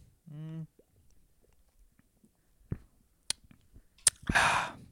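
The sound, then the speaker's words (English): Chewing while eating mud crab, mukbang style: a few faint, sparse crunches and wet bites, building to a louder, noisy crunch near the end, after a brief voice at the start. “Some mukbang for you guys. Me tasting.”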